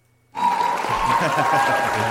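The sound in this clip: An applause sound effect bursts in abruptly after a brief silence and holds steady as a loud, continuous wash of clapping to the end.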